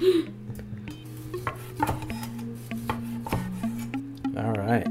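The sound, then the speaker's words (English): Cutlery scrapes and clinks against a plate as someone eats a moldy pork chop coated in koji. Faint rasping strokes and a few sharper clicks sit over a steady tonal background. “eating a moldy pork chop. And it was quite possibly the most delicious pork chop I've ever eaten. It was covered with a microbe called koji.”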